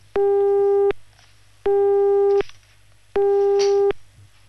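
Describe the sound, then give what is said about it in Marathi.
Telephone busy tone after a call is cut off: three identical mid-pitched beeps, each lasting under a second, separated by evenly spaced silent gaps, heard alone. “Cut झाला call.”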